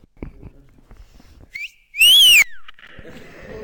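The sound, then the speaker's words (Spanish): A wolf whistle of the kind aimed at an attractive person, given on request as a demonstration: a short thin lead-in note, then a loud piercing whistle that arcs up and falls away, over faint background murmur. “en España se silba para decir a una chica que es muy guapa. O para decírselo a un chico. Por ejemplo, ¿alguien puede aquí hacer el sonido de ese?”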